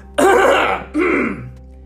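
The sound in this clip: Throat clearing and coughing come in two harsh, rasping bursts, the first longer and louder and the second shorter, followed by quiet.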